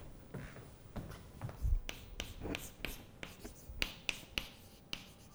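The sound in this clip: A heading is written by hand, with faint, irregular scratchy strokes and sharp taps scattered through a quiet background.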